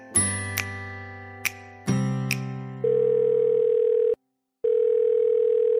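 Telephone tones sound while a call is placed. A few clicks and chiming tones are followed by a steady, loud dial tone, which breaks off briefly and then resumes. No one speaks.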